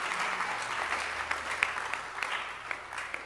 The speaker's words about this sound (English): Clap for Jesus.